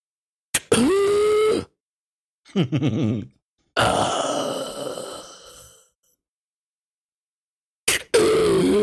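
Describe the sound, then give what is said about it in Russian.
A man vocally imitates loud, choking snoring: four strained, gasping groans and rasps separated by short silences, the third the longest and most ragged. “я никогда не слышал такого храпа. Я его записал на диктофон, потому что это нахуй страшно было. Чувак как будто задых, задыхался.”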